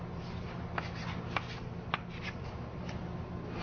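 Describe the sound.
Writing on a board during a physics lecture: faint, scratchy strokes with a few sharper taps spread irregularly over a few seconds, quiet against a low steady hum.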